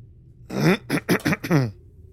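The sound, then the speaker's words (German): Someone clears their throat in a few short, rough, voiced bursts, moderately loud against near silence. “nicht, nicht räuspern.”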